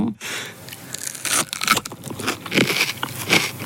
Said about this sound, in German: Aber ich beiße jetzt mal rein.